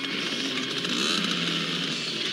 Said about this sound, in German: Als er Tommy und Mario bemerkt, springt er aus dem Auto, doch die beiden machen sich mit dem Auspuff aus dem Staub.